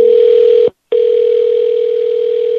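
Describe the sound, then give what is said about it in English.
A loud, steady electronic telephone tone on an outgoing call, a single pure pitch that cuts out briefly for a moment and then resumes unchanged to the end. “We got some rapid ringing.”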